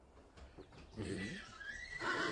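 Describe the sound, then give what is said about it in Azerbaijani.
A horse neighs, an Iranian horse, its whinny faint and brief, rising briefly out of low background noise. “Bu İran atıdır.”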